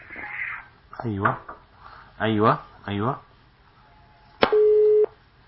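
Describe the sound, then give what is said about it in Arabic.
A phone line cuts off during a call, and a short, steady, mid-pitched tone sounds after a few brief voiced fragments. “ايوه خط قطع.”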